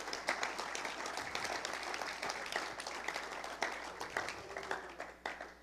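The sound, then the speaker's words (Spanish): A church audience applauds during a bilingual worship service, dense overlapping clapping that continues steadily, fairly faint, with a few sharper claps standing out near the end. “Vamos a darle un aplauso al Señor. Let's give a big hand to the Lord.”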